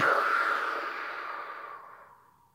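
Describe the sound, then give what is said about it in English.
Slow breathing exercise: one long, soft exhale out through the mouth, breathy and steady, fading gradually to near silence. “we're going to breathe in through our nose like this. And then out our mouth.”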